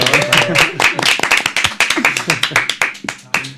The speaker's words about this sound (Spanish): Bueno, pues un aplauso para...